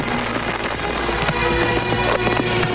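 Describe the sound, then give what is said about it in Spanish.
Fireworks exploding in the night sky over a Western-era town near a bar: a dense, continuous barrage of loud crackles and pops over a deep rumble, with no pauses. “apunta hacia el cielo mientras los fuegos siguen estallando”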